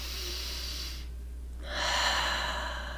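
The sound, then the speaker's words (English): A deep breath taken during a guided visualization exercise: soft airy breath noise, a brief pause, then a louder, longer breathy phase over a steady low hum, with no talking. “then take one more deep breath”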